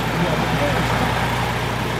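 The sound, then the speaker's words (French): Engine of the last car crossing the bridge at a border checkpoint before the barriers close: a low, steady motor rumble with murmuring voices in the background. “Voilà, la dernière voiture qui passe sur le pont. Fermeture des barrières.”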